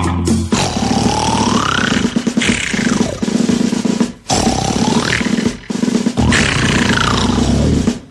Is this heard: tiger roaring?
yes